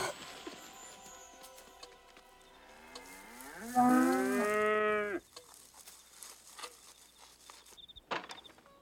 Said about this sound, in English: Cows are always good for a laugh, so we have cows.